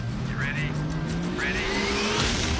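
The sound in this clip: Race car engines drone steadily, and two rising whines sweep upward as the engines rev.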